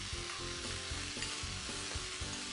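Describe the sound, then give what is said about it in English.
Steamed vegetables going back into a hot pan: a loud, steady, continuous sizzle with a few soft stirring knocks underneath, no voices. “Everything goes back into the pan.”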